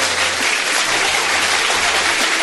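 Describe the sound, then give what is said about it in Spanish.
Dense crowd applause rolls on steadily for the whole stretch, a thick even wash of many hands with no single claps standing out and no voices. “Sí, les aplaudo.”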